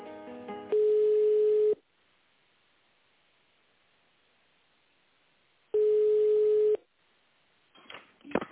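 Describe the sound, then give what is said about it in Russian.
Telephone ringback tones play while an office call is transferred to a purchasing colleague. Two long, steady beeps, each about a second, are separated by a silent gap of roughly four seconds, followed by brief line noise. “Вас с Ольгой Ивановной соединить по закупкам? Да. Угу. Переключу.”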